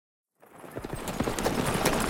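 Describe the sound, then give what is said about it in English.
Horse hooves and a buckboard wagon, with a pack mule led alongside, setting off on a trail. Sound rises from silence into a dense, steady clatter of hoofbeats over a rumbling wash of noise. “Less than 10 minutes later, the kid rode out of Abilene, leading the pack mule, with Arturo following in the buckboard.”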